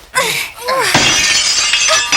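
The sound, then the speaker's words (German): Glass shattering as a stone smashes a window pane: brief voice sounds at the start, then a sharp crash breaks into a bright, sustained spray of tinkling shards that carries on to the end. “Und mit diesem Stein hier schlage ich das Fenster ein.”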